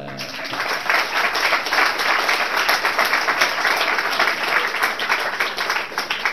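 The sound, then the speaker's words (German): Loud audience applause welcomes a guest, a dense, even wash of many hands clapping that holds steady for the whole stretch without fading. “Also vielleicht begrüßen wir den Egon Alt mit lautem Applaus, weil sein Schicksal ziemlich kompliziert ist.”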